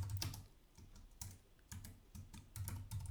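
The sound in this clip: Keystrokes on a computer keyboard while logging in to an online betting game: quiet, uneven clusters of light clicks that arrive in several short bursts with brief pauses between them.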